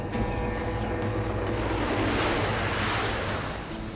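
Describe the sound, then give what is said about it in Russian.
Tanks driving over dusty terrain make a loud, unbroken roar of heavy engines, dense and steady from start to finish with no pauses. “Танки едут по пыльной местности. В небе проносятся самолеты.”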